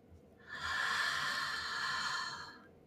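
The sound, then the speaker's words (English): A deep, slow breath during a guided seated breathing exercise: one long, steady, airy rush of air that swells, holds evenly and fades, with no talk. “Take a big inhale through your nose and a full exhale through your mouth.”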